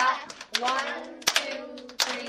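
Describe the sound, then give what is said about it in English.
Claps and stomps from a children's dance class: a few sharp, spaced hits cutting through an adult voice that talks over most of the moment. “5, 6, 7, 8. Stomp, clap, clap, stomp,”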